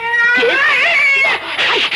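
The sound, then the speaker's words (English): A domestic cat meows in long, wavering, high-pitched yowls, one drawn-out cry followed by another after a brief dip, loud and alone. “I'm probably getting cat hairs all over it. So, I think you'd better get down. Come on, cat. Get down. Get off my chair.”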